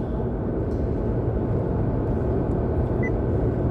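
Steady low road rumble from a car being driven, a dense, even roar that holds at the same loudness throughout with no talk.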